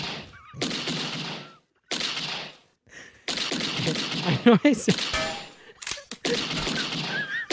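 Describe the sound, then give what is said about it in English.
Gunshots from a gun fired in a dramatic scene: loud, sharp blasts mixed in with dense, noisy sound and broken pauses of quiet between bursts. “She fires her gun one more time. Twice.”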